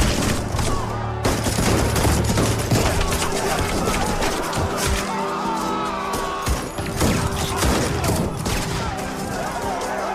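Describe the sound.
A gunfire volley from a reenactment of the Jallianwala Bagh massacre, with dense, loud, crackling shots that run together almost without a break from start to finish.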